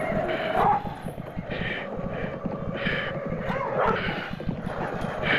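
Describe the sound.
Dogs barking during a chase at night, with repeated yelping barks in short bursts over a rough, continuous low rumble, moderately faint throughout.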